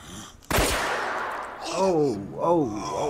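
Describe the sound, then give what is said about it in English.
A single gunshot rings out in a video game: a sharp, loud crack with a long decaying tail, followed by brief voices. “Oh, shot him. Captain? He about to shoot you next.”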